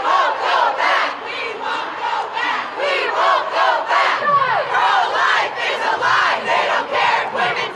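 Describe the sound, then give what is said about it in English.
Hundreds of demonstrators chant in D.C. at a Women's March protest against the Supreme Court's reversal of Roe v. Wade. Loud, rhythmic waves of massed voices rise and fall steadily. “That is the sound of hundreds of demonstrators over the weekend in D.C. protesting the Supreme Court's reversal of Roe versus Wade.”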